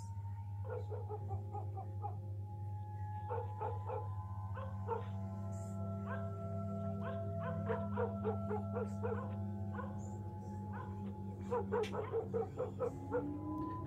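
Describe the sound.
Village dogs barking on a deserted village road: many short barks and yips come in irregular clusters, some overlapping, over a steady low background hum.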